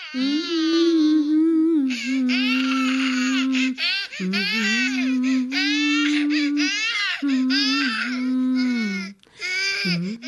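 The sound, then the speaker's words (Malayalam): A baby cries in long, high, wavering wails broken by brief pauses, loud and continuous across several bursts, with no separate talk. “മോൻ കരയുന്ന് കേൾക്കുന്നില്ല.”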